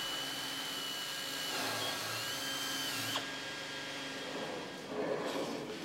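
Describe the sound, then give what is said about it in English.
Continuous high whine of a power tool trimming the edges of a moulded carbon fibre main wing piece, buzzing steadily with shifting tone and a brief sharp click partway through. “To see how strong carbon fibre can become, you only have to try trimming the edges. This is a moulded piece of the main wing.”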